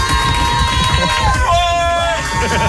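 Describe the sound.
A studio audience at a live evening entertainment show cheers and shouts, a dense, loud and sustained roar of many voices with high, piercing whoops and yells rising above it throughout.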